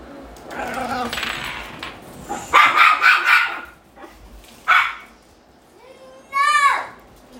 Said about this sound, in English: Sorry about that. That was our dog's puppy.